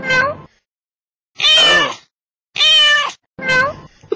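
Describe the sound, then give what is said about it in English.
An angry cat yowling, four drawn-out, strained meows with wavering pitch, separated by short silent gaps, loud and heard alone without talk. “And you're angering the cat as well. And it's hard to anger the cat.”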